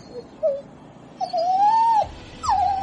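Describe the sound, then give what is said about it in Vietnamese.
A dog whimpering in pain: a few high, wavering whines, one brief and then two longer drawn-out cries that rise and fall in pitch, with quiet gaps between them. “tiếng rên của loài chó giờ phút này nghe càng giống đang kêu đau”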